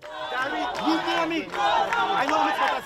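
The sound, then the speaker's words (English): Hundreds of protesters in the streets of Trinidad chant calls for an election, their voices rising and falling together in loud, rhythmic phrases separated by brief dips. “Hundreds of locals fill the streets of Trinidad. The chants are calls for an election.”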